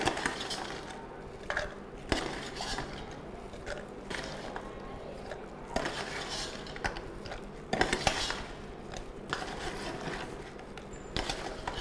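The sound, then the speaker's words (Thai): A spoon scoops product into a jar, making many light clinks and scrapes at an irregular pace over soft background noise. “เป็นกระปุกได้นะครับเราก็ใส่ลงไปนะครับอาจจะใช้ช้อนตักลงไปได้นะครับ”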